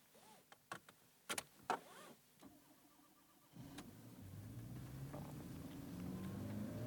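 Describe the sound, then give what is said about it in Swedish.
A car sets off on a drive: a few sharp clicks and thumps come first, then the engine starts and settles into a low rumble that builds steadily louder as it pulls away. “En biltur. Ja, då kör vi. Du, säkerhetsbältet. Spänn fast säkerhetsbältet, är du snäll.”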